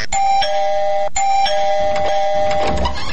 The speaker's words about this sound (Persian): خو باش که من زنگ دروازه شانه پیدا کنم.